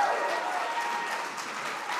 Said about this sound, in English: So can you put your hands together and help me welcome him up to the stage?